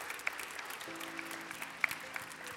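A church audience applauds a member returning to service after open heart surgery. The clapping is soft and scattered with a few sharper claps, and a quiet sustained low tone runs underneath from about the first second.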